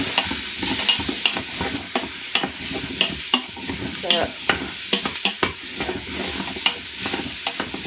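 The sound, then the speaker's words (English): Stirring of chopped carrots, garlic and onions frying in an Instant Pot: many quick scraping and clattering strokes over a continuous sizzling hiss, with no voices. “I've got my carrots all chopped, they're all going in now. So then I can mix them in with the onions and it'll make them a little bit nicer.”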